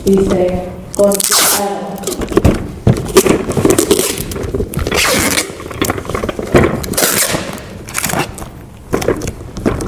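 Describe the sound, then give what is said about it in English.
Packing tape printed with a fragile warning rips off its roll in a series of raspy, zipper-like pulls, followed by scraping and crinkling as it is pressed down onto a box. “So I've got my box, and I've got fragile tape. It says fragile, handle with care.”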